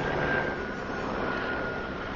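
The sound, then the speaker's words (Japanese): A helicopter flying overhead makes a steady, broad roaring rush that holds at a constant level throughout, with no talk. “なんかすげえ今上をヘリがバリバリ”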